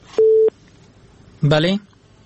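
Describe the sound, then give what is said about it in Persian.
A telephone line after a dropped call on a radio call-in: a single steady, mid-pitched beep, then after a pause a brief, buzzy voice-like burst. “تماسشان از دست دادیم، یک تماس دیگه هم میگیریم.”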